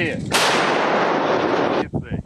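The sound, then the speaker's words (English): Russian artillery firing during the war in Ukraine: one loud blast with a sharp onset that roars on as a sustained, broad boom, followed by a few short, rough bursts as it fades. “Footage released by the Russians shows their artillery in action.”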